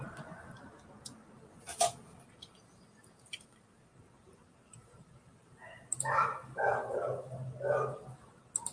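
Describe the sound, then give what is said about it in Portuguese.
A dog barks a few times in the background, faint and intermittent, the barks clustered toward the end of a quiet stretch. “Tô ouvindo muito um cachorro lá no fundo”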